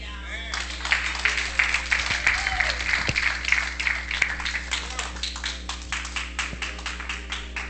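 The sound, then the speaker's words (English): Applause from a church audience: dense, rhythmic clapping runs through the whole stretch, steady and moderately loud, with a man talking over it. “All right, give everybody a hand, y'all. Come on. Come on, give everybody a hand. I know you've been clapping a lot.”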